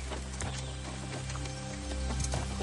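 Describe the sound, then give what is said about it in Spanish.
Hooves clop from a horse walking as it is led along, loaded with bundles of firewood; irregular, steady footfalls over a constant low hum and background noise. “El anciano tira de su caballo cargado con haces de leña y sigue adelante.”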